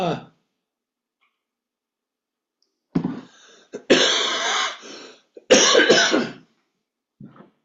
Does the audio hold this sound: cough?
yes